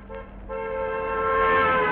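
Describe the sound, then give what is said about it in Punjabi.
A vehicle horn sounds as cars gather for an outdoor event near a truck union, starting faint and then swelling into one long, loud, steady honk that holds a buzzy, harmonic tone to the end. “ਓਏ ਹਾਰਨ ਕਿਹੜਾ ਵਜਾਈ ਜਾਂਦਾ ਯਾਰ, ਬਾਈ ਜੀ ਐਂ ਨਾ ਕਰੋ, ਆ ਗੱਡੀਆਂ ਦੇ ਹਾਰਨ ਨਾ ਵਜਾਓ”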